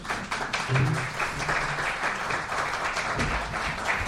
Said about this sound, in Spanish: Fuerte aplauso para ellas.